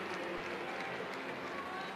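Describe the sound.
A baseball crowd cheers a walk after a nine-pitch at-bat, a steady, dense roar that holds at an even level for the whole moment.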